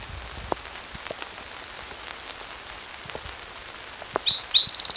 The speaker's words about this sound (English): It's raining now.